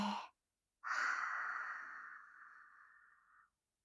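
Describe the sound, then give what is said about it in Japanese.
Slow, deep breathing in and out during a relaxation exercise: a brief breath at the start, then after a pause a long, soft, sighing exhale that gradually fades over nearly three seconds. “はい、吸って。吐いて。”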